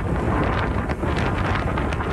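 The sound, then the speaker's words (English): Wind from a winter storm in South Dakota and Nebraska: a loud, steady, roaring rush with buffeting gusts that fills the whole clip, and no voices. “Wind from a winter storm in South Dakota and Nebraska for the holiday.”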